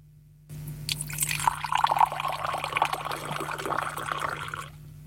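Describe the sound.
Tea poured into a glass, a continuous splashing trickle that starts after a brief quiet moment, runs for about four seconds and then stops, over a low steady hum.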